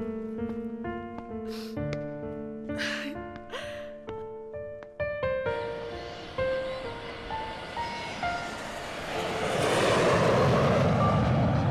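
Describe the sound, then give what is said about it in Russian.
An airplane taking off: a broad, rushing engine roar grows and swells loud toward the end, beneath a melodic musical passage. “Самолет взлетел.”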